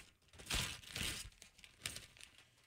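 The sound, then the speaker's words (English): Gift wrapping paper being unwrapped, heard as faint crinkling and rustling in a few short bursts with quiet gaps between them. “Let's unwrap his gift.”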